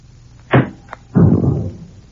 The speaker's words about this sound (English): I got a tear gas bomb here. I'll toss it in through the door.